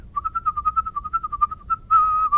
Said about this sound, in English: Whistling has been a performance or a show content, but not really being perceived as a musical instrument.